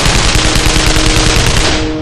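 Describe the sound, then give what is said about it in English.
AK-74 assault rifle gunfire fired from the hip: a loud, rapid, unbroken burst of automatic shots lasting about two seconds, easing slightly at the end. “had his own AK-74 ready, opening fire from the hip.”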